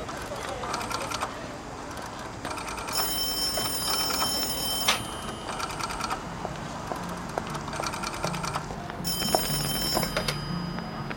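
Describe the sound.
A telephone rings for a collect call to a household, its high, metallic ringing coming in repeated bursts separated by short gaps over a low, steady background.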